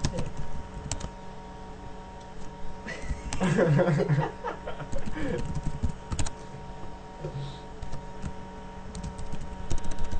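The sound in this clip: Typing a document on a computer keyboard: steady, uneven clicking over a low electrical hum, with voices briefly talking in the middle.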